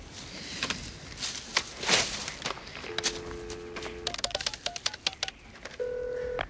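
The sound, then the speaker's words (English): Telephone keypad tones sound at a gas station. Scuffing footsteps and brush noises come first, then a long beep, a run of quick clicks, and a final beep. “At the gas station, Jake kicks a tumbleweed as he dials a phone.”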